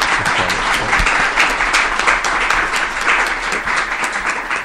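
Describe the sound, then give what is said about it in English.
An audience applauds at an event celebrating a grant for a homeless alliance, a dense, steady wash of many hands clapping at an even loudness throughout, with no voices standing out. “But I'd like to give them a round of applause. You really do deserve”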